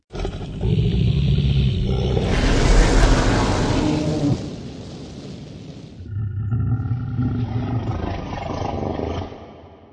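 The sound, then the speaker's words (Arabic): A deep, loud dragon roar for a story, one long rumbling bellow that eases off, then a second sustained growling roar follows. “زئيره القوي أشعل ناراً عظيمة لا يمكن للرياح أن تطفئها.”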